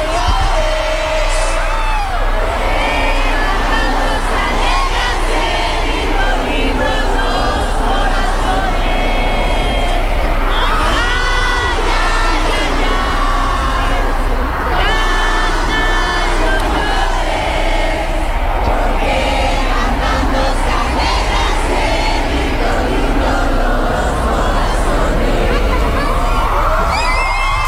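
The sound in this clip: Concert crowd singing along loudly as the traditional song Cielito Lindo is performed, a dense, constant mass of voices with shouts and whoops rising above it.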